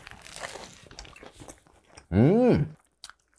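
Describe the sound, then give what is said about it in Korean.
Crunchy bites into fried chicken sprinkled with seasoning powder, with a few crisp, crackling crunches at a moderate level, then a loud voiced hum that rises and falls in pitch. “당당한 후라이드가 맛있어. 뿌링 스타일 소스 뿌려 먹으면? 뿌링 잔뜩 뿌려서.”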